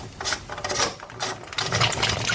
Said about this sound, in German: Noch eine Drehung, dann kann man es rausschrauben.